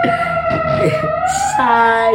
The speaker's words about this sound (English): siren. I hope whoever they're saving is okay. Yeah. Or if that's police.